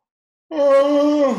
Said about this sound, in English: sorry, that was a yawn.